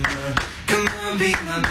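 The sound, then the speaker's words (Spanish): Rhythmic hand claps sound inside a pop music track: a few sharp, evenly spaced hits over sustained tones. “esas palmas.”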